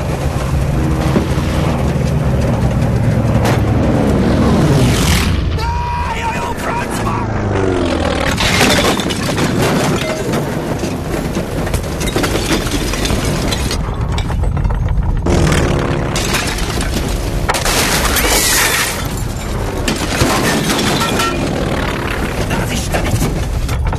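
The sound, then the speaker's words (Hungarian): An aircraft crashing produces a loud, continuous engine roar and rushing noise, with crashing, shattering impacts, while people shout over much of it. “Howard, csökkentse a fordulatszámot! Lezuhanok! Ezt nem fogom túlélni, haver!”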